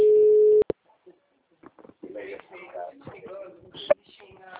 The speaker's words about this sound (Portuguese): Vou ligar do meu celular.